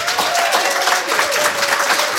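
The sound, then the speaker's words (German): An audience applauds warmly as a guest is welcomed at a live event. The clapping is loud, dense and sustained, a continuous crackling wash of many hands with no break. “Einen großen herzlichen Applaus für Sven Deutschmann.”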